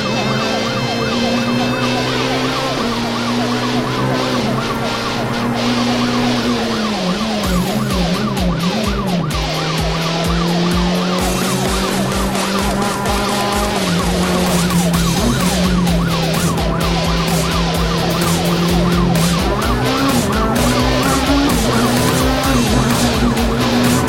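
A car being driven erratically, heard as loud, continuous engine and road noise overlaid with wailing, swooping siren-like tones that rise and fall throughout.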